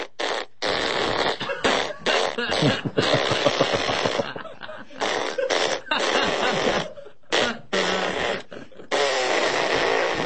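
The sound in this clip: Fart noises from a person on a high-fat diet: loud, rough, sputtering bursts of varying length follow one another in a rapid, uneven run with short gaps between them.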